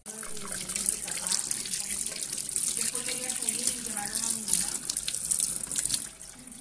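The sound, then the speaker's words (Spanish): Tap water runs steadily into a sink while someone washes their face in the morning. The splashing flow stays even and continuous, then eases off slightly at the end. “Después me lavo la cara.”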